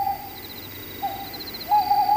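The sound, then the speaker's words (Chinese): Three owl hoots come from outside a door, each a steady mid-pitched tone. The hoots are spaced roughly evenly, with the last one held longest. “正说着，门外又传来三声猫头鹰叫。”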